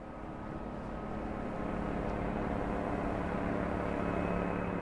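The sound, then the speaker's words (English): A police surveillance helicopter flying overhead makes a steady, low, rumbling drone that grows slightly louder and continues without other sounds. “That's the sound of a police surveillance helicopter flying overhead.”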